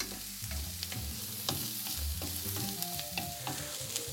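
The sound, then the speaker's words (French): Onions and carrots sizzle gently in a pan while being stirred, a soft frying hiss broken by many quick scraping strokes of the utensil. “On tourne un petit coup, on veut toujours pas que ça attache, on veut pas que ça colore. Je parle bien sûr des oignons et des carottes.”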